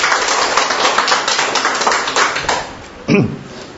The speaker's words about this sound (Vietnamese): Chúng ta chúc mừng anh em Hàn Quốc, một tràng hoa tay thật lớn thưa anh chị em.